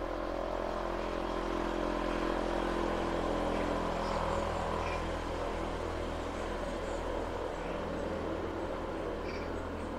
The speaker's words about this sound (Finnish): Erikokoisia kulkuneuvoja ajaa mun takana.